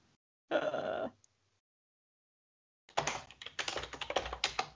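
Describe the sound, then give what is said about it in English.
Typing on a computer keyboard while entering a search, a rapid, uneven run of clicks. It follows a brief vocal sound and a silent pause. “I had to type girl and boy.”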